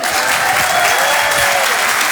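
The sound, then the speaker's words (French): Audience applause at the Rire et Chanson comedy club night at the Apollo, a dense, loud, unbroken clapping that stays steady for the whole stretch. “Merci d'applaudir très fort Guillaume Fosco à l'instant sur Rire et Chanson.”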